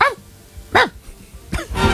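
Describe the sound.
A stray Filipino aspin, a native mixed-breed dog, gives a few sharp, high, yelping barks with falling pitch, spaced out with quiet gaps and ending in a louder, noisier stretch.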